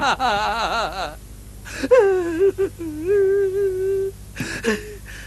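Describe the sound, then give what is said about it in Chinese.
A monster is crying and whimpering. Wavering, high-pitched sobs lead into a long, drawn-out moaning cry, with short breathy gasps in between. “妖怪，妖怪，你别哭了”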